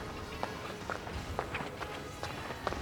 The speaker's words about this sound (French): Rue vide, ambiance soir. Deux, bruit de pas, plusieurs.